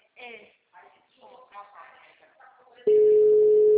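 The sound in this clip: A steady, loud telephone tone sounds while a caller waits for someone to answer a number, starting abruptly after a few seconds of talk and holding at an even pitch to the end.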